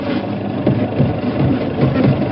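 A car engine runs steadily during a country motor trip, a low, even rumble with mild vibration and no clear changes in speed, heard alone without talk.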